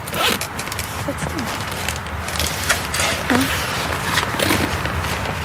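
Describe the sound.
Rasping zipper of a backpack holding clothes and boots, pulled in several quick strokes, a dry scratchy texture that stays fairly even and moderately loud throughout.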